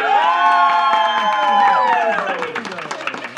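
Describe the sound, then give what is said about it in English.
Live studio audience cheering, with loud whoops and shouts over scattered clapping, strong at first and then thinning and settling toward the end. “does that sound like a live studio audience? Oh, because it totally is!”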